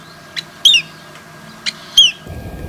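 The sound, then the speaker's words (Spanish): A giant black woodpecker calls with four sharp, high notes. The second and fourth notes are louder and longer. A low rumbling noise enters near the end. “Hay otro carpintero más, que es el carpintero gigante. A ver.”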